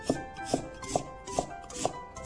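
Five crisp knife strokes slice an onion into thin shreds, landing at an even, unhurried rhythm with quiet gaps between cuts and no talking.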